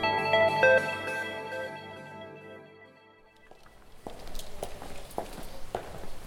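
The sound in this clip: Footsteps walking past an EV charger development and testing lab: a fading tonal hum gives way to a steady series of soft, evenly spaced steps.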